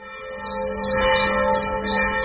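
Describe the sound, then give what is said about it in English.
A single church bell rings a monotone peal in Magdeburg, Germany, calling parishioners to evening prayers at a Gothic church: a steady, sustained tone with shimmering overtones that swells slightly louder and lingers without clear separate strikes. “Here in the eastern city of Magdeburg, the monotone peal of a single church bell calls a modest flock of parishioners to evening prayers.”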